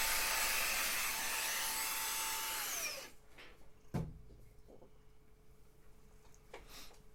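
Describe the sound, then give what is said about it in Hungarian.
Whirring motor of a handheld vacuum cleaner in a video game: a loud, steady buzzing whine that runs for about three seconds, then winds down with falling pitch and cuts out, followed by one dull thump and a few faint clicks. “Na mi van, cica? Nem tudtam, hogy ekkora nagy rajongója vagy a kézi porszívónak.”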